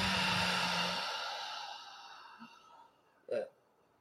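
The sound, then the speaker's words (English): Deep breathing during a guided chakra meditation. A long, loud, breathy exhale fades out slowly over about two seconds, then a single short breath sound follows near the end. “So we'll breathe in and out.”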